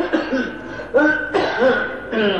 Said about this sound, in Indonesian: Nah itu sudah batuk-batuk.